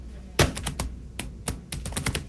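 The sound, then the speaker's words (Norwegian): Typing on a computer keyboard at a university in Porsgrunn, Norway: crisp clicks and hollow taps in irregular bursts, fairly loud, with short gaps between groups of keystrokes. “Her knittrer det I tastaturet på USN I Porsgrunn.”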